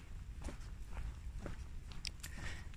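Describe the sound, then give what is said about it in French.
Footsteps walking outdoors in fog: a faint, steady series of soft steps at an even walking pace. “Et là, depuis que j'ai quitté la maison, je marche dans le brouillard.”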